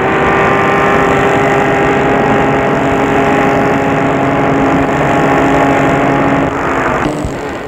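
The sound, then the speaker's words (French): A car engine drones steadily as the car drives out of Lyon into the countryside, a loud, even hum that drops in level near the end. “La voiture quitte Lyon. Elle roule, roule, roule, roule.”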